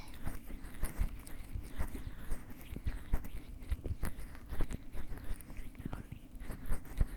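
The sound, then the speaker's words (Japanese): Massage oil rubbed into both ears in a binaural maid ear-care roleplay, heard as many soft, close, crackling and squishing strokes in a steady stream, with faint whispery texture throughout. “では両側のお耳にすり込めさせていただきます。”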